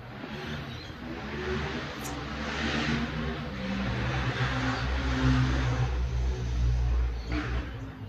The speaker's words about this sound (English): Wait for the dirt bikes to go past.